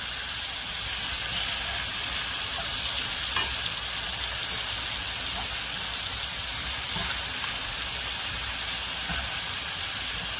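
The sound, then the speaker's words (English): Ingredients for jerk shrimp rasta pasta sauté in a pan with a dense, continuous sizzle and crackle, while faint scrapes of stirring show through now and then. “So this is going to saute until it gets soft.”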